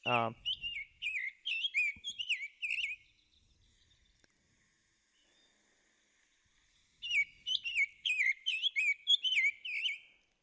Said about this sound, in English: the cool thing is it can play the sounds that that bird makes. And so you might be able to hear this